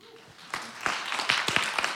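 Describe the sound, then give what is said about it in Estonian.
Audience applause that starts quietly and then swells into a run of distinct, crisp claps from a modest number of hands, getting fuller toward the end. “kõlab hästi , aplaus .”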